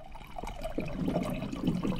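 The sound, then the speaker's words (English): Faint, steady trickle of water being poured into a glass from a Culligan water dispenser, a soft continuous splashing that grows slightly fuller as the glass fills. “pours a glass of water from his Culligan water dispenser”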